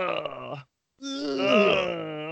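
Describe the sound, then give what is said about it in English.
A voice imitates the groan of a wounded man, like a hurt fighting-game character: a short moan, a brief silence, then a longer, wavering, wailing groan. “Oh, he's still alive because he's groaning. And he was like, ugh. Is that what happened? Well, that's the sound that I heard.”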